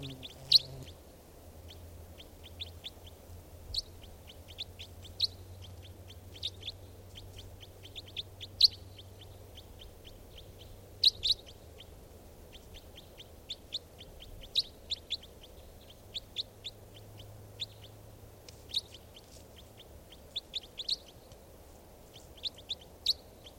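Recorded bird call: many short, sharp high chirps repeating at irregular intervals over a steady low hum, with no voices.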